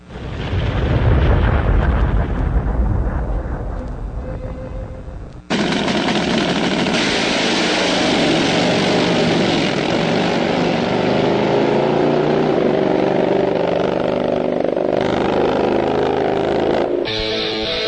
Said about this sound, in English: It's time to go drag racing! 200 plus miles per hour!